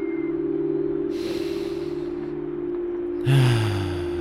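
Deep breathing during a relaxation meditation: two soft, airy breaths over a steady, low humming tone, the second breath louder and fuller than the first.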